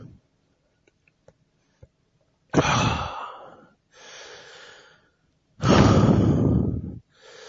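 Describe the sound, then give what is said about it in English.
Heavy breathing from someone out of breath: three long, noisy, breathy exhalations, the first and last loud and the middle one softer, preceded by a few faint clicks. “Sorry, I'm out of breath.”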